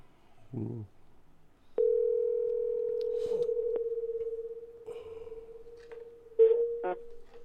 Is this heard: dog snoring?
no